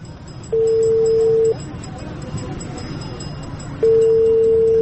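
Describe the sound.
Ringing tone of an outgoing phone call as it connects: two long, steady, even-pitched tones separated by a gap of several seconds, over a low background hiss.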